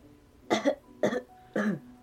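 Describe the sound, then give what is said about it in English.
Three short, evenly spaced coughs during a doctor's stethoscope check of the back. Each is a brief, loud burst with silence between. “Cough!”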